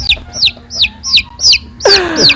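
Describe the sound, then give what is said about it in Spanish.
Chicken clucking in a quick, evenly spaced series of short, bright calls, ending in a louder and harsher burst of clucks. “Un pollo.”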